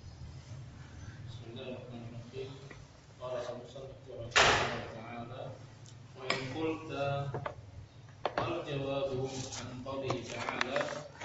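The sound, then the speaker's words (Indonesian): A door is shut with a single sharp thud partway through, while people talk before and after it. “tolong ditutup pintunya.”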